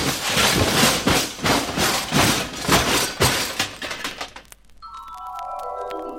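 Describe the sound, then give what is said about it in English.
A rocket ship crashes into a planet with a long run of loud, clattering, smashing bursts that repeat many times. The din then drops away, and a quieter sustained tone remains to the end. “I'm going to crash into it. Oh, gosh, I got to do something. I'll pull this lever. No, I'll try this valve. Oh, it's no use. I can't stop it. I'm going to crash.”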